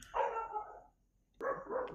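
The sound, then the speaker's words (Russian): Dogs bark back and forth, two drawn-out, faint barks separated by a short silent gap, with no talking. “Собаки, говорю, как обезьяны, одна залаяла, и все, и они начинают теперь перегавкиваться.”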